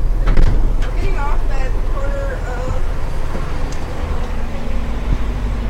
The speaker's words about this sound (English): We're getting off the bus and walking. Okay, we're gonna get off here, folks.